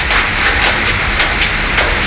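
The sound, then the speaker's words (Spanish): Heavy rain from a thunderstorm pours down in Sabadell, Catalonia, a dense, steady, loud hiss of falling water that holds even throughout, with no voices. “aunque para fuertes las tormentas que descargaron ayer por la tarde en Cataluña. Así caía en Sabadell.”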